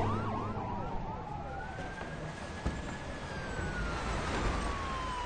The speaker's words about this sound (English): He turns as police cars speed by.